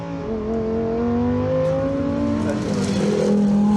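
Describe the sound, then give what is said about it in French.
A race car engine roars as it speeds along a road normally open to traffic, a loud, continuous, revving drone whose pitch climbs and shifts throughout. “Oh là là, et ce moteur.”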